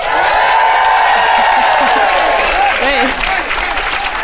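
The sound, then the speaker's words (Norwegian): A live audience packed into a cellar venue on International Women's Day cheers and applauds loudly, a thick wall of clapping and voices with high whoops and whistles rising out of it partway through. “Bare lag skikkelig lyd nå, publikum, så vi hører hvor mange dere”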